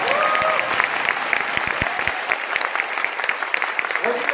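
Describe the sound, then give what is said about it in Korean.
Applause from an audience at a speech on democracy: dense, sustained clapping fills the whole stretch at a steady, fairly loud level, with crowd noise mixed in. “이 정도면 박수 한번 쳐주셔야 됩니다.”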